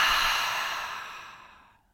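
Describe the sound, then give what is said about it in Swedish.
A deep breath taken during a guided relaxation, heard as one long airy exhale that starts fairly loud and fades steadily to silence over about two seconds, with no talk. “Ta ett djupt andetag in genom näsan och ut genom munnen.”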